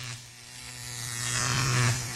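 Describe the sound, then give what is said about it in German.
Electric shaver buzzing with a steady, low, droning hum that holds an even pitch and swells slightly louder toward the end before easing off. “Was ist das? Ein Rasierer. Ich habe dich rasiert.”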